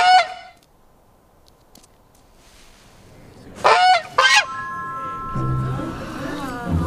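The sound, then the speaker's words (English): A huge white goose honks: one nasal honk at the start, then two loud, blaring honks close together after a quiet pause, followed by sustained tonal music. “A huge white goose, bigger than a two-story house, steps into the middle of a street and peers at them.”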